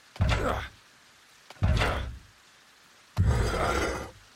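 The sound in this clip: A door being opened, heard as three loud, rough scraping bursts of about half a second each, separated by short quiet gaps.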